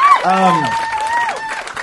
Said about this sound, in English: What is that? Oh, what a surprising ovation. Unbelievable.